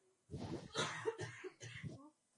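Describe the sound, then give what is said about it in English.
A bout of several harsh coughs in quick succession, fairly faint, with no talk. “Sorry about that, but I'm battling a cough.”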